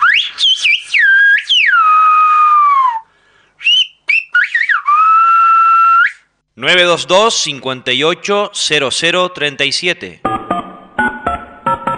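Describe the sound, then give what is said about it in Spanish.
Whistled speech in the Gomera whistled language: long gliding whistled phrases with rising and falling pitch, broken by two brief pauses, then a run of rapid, fluttering modulated whistles, loud and alone. “Con ese regalo que los maestros gomeros me hicieron. Vamos a decirlo silbado.”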